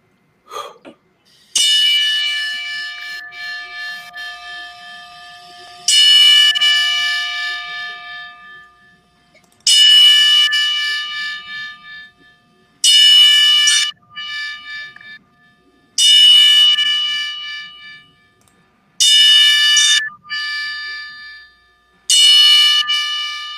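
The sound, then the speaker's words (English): A bell rings a ten-bell memorial salute, struck in a slow, evenly paced series. Each bright metallic strike rings out and fades for a few seconds before the next, with no voices over it. “please bow your heads in respect as we do the 10-bell salute for my brother, Shad Gaspard, and many others.”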